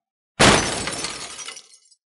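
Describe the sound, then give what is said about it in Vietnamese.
A fist slams onto a table and tea cups tumble: one sudden loud crash with a bright clattering rattle that fades over about a second and a half. “nắm đấm đập mạnh một cái lên trên mặt bàn.”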